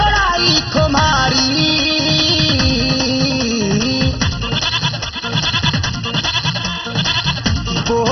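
Goat bleating mixed into a dense, continuous music track, with wavering, quavering cries woven through steady instrumental sound at a constantly high level.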